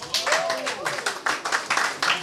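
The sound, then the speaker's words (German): Applause for a musician at a live music event, with clapping in a steady, fairly quick rhythm and a voice sounding over it. “Applaus für Sigi!”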